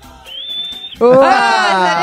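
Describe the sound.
A woman whistles one steady, high, clear note for most of a second. A burst of loud, excited voices then follows right after and fills the rest.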